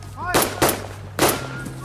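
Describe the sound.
Historical reenactors in roughly 70-year-old clothing fire guns: three sharp, loud bangs go off in quick, irregular succession, with voices audible in the background.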